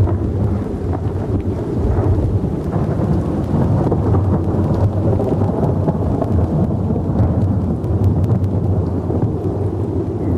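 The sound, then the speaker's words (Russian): Night thunderstorm with thunder, rain and wind: a loud, unbroken low rumble rolls beneath a constant hiss of heavy rain throughout, with no single sharp clap standing out. “Страшные ночи с громом, молнией, дождем и ветром, которые в народе называют воробьинами.”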